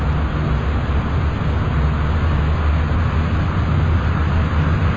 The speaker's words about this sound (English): First, let's release the brakes here and get rolling.